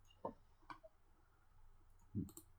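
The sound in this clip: Faint mouse clicks in a settings menu: a few soft, separate clicks with quiet gaps between them, alone.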